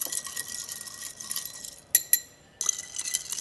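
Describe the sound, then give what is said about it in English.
Spoon clinking against ice in a glass as a cocktail with pecan extract, lemon oil and orange bitters is stirred. Two bright clinks sound over a continuous hiss, followed by a brief quiet gap. “Add some ice, take our spoon, stir it up.”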